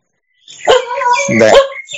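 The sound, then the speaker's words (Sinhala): A dog barks loudly after a moment of silence, giving a couple of sharp, tonal barks in quick succession. “අන දැන් බල්ලෙක් පුරනවා ඇහෙනවා නේද?”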